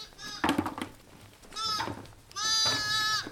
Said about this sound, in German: In dieser Nacht ist bei den Heidschnucken erstmal der Nachwuchs gekommen. Ich glaube, jetzt müssen wir mal gerade gucken, jetzt kommen gerade unsere zwei neugeborenen Lämmer hier dazu die, die jetzt hier irgendwie nicht mehr wissen, wo die Mama ist.